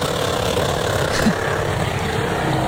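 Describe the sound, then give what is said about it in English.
Steady engine roar from a car doing burnouts, a continuous dense rumble with no breaks or clear changes in level. “She was, like, 80. When she learned how to do... burnouts.”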